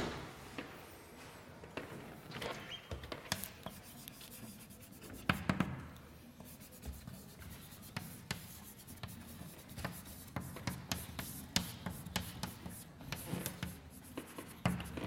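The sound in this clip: Quiet handwriting during a probability lesson, with steady scratching strokes and many small taps continuing throughout.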